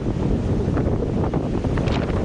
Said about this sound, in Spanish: Así suena a esta hora el viento en Lugo.